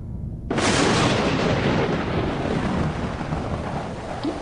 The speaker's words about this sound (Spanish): Mientras las tormentas retumbaban en el cielo, la lluvia comenzó a caer en la rocosa superficie.